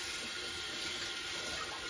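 Water running to rinse soft, sticky bread dough off one hand in a kitchen, a steady, fairly faint hiss of flowing water with no breaks.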